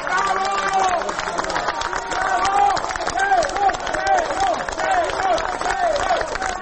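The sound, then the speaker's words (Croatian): A crowd of citizens and opposition party members outside the special court building in Belgrade applauds and chants "hero" rhythmically, with repeated chanted voices over steady clapping and babble that keeps a fairly even loudness. “Aplauzom i uzvicima heroj, ispred zgrade specijalnog suda u Beogradu, građani i predstavnici dela opozicionih stranaka dočekali su 6. septembra Milana Isakova”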